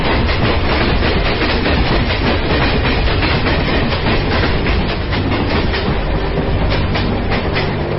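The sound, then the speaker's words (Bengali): A train roaring past in front of a stopped car, a loud, continuous rumble with the rapid rhythmic clickety-clack of wheels on rails throughout. “আর সঙ্গে সঙ্গে সামনে দিয়ে রেলগাড়িটাও গর্জন করতে করতে বেরিয়ে গেছে।”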